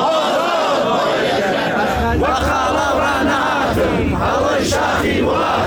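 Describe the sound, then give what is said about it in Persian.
A crowd of teachers at a protest sit-in in Iran chants slogans in unison, a loud, continuous mass of voices with rhythmic surges of shouting. “این تصاویری است از تجمع تحسن معلمان در مریوان دیروز دوشنبه.”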